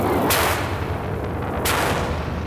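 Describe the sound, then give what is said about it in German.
Guns fire at fast space fighters with two sharp, heavy blasts spaced about a second apart. Both cut through a constant loud roaring rumble. “Schießen Sie, Gordon, schießen Sie! Die Raumjäger sind verdammt schnell.”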